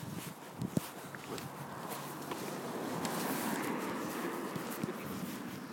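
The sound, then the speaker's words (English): Footsteps of people walking, faint steps amid a steady background hiss, with a few sharper footfalls early on and the rest soft and continuous. “pause this because it's just us walking.”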